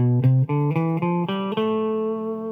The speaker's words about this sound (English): And the full A minor scale sounds like this.